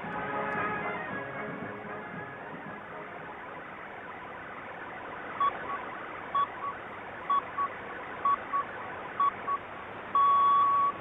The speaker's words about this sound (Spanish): ¿Quieren escuchar un audio para corroborar de qué manera suena Sudán Radio? Lo hace de esta forma.